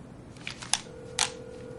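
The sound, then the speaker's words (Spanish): Faint clicks of a telephone being dialed late at night to reach a hotel: two soft, sharp clicks, followed by a steady low tone that continues to the end. “Ella marca un número de teléfono.”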